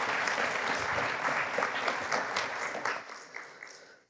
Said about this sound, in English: Let's give her Bernice a welcome one more time.